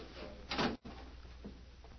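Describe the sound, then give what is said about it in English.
A door being closed gives a single short, muffled thud. It is faint and sits over a steady background hiss, followed by a brief drop to near silence. “Close that door.”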